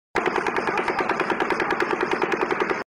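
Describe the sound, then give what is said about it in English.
Rapid automatic gunfire at about 800 rounds per minute, roughly 14 rounds a second, fired as one loud unbroken burst of many evenly spaced sharp shots that stops abruptly. “Okay, now this is 14 rounds a second at 800 RPM. Now listen to this one. Now you're going to hear the Las Vegas shooting again.”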